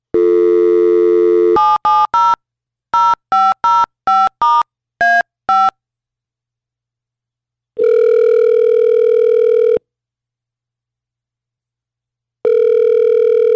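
A telephone dial tone, then a quick run of keypad touch-tone beeps as a number is dialed, followed by two long ringing tones on the line separated by silence.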